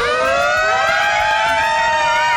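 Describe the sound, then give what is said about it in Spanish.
A siren sound effect wails without a break. It is a loud, steady, high tone with layered harmonics and only a slight drift in pitch, heard alone. “¡La sirena viene hacia mí! Espera para ver.”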